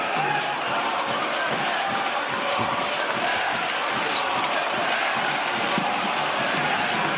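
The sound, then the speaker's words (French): At a basketball game in the Equinox arena, the crowd roars loudly and steadily in displeasure at a referee's foul call, with occasional ball bounces. “Et voilà, le public d'Equinox, pas content.”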